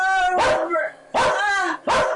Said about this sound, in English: the dog's going crazy then, too. And when the dog's going crazy, it's best just go let him finish.